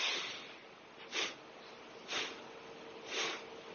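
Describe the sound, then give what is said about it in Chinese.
Three quick, forceful breaths from a breathing exercise, each a short, sharp burst of air spaced about a second apart, faint against a low steady hiss. “在这个状态下我们做一个呼吸，吸气的时候用力向上，快吐”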